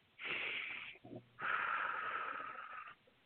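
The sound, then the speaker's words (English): A slow, deep breath drawn in and then released in a long, steady exhale during a guided affirmation, airy and breathy with a short pause between inhale and exhale, heard alone with no talking. “Take a deep breath.”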